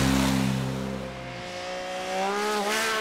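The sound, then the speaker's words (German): Cars speed loudly through a village. One engine's drone drops in pitch as it passes, then another engine climbs steadily in pitch as it accelerates. “Man hört es ja jetzt auch gerade, also die fahren sehr laut durch den Ort”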